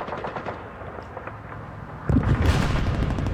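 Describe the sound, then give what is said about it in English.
World War II battle gunfire, with dense, rapid machine-gun bursts rattling continuously and growing louder and heavier about two-thirds of the way through. “There's actually World War II sound effects. Hold on, there's one.”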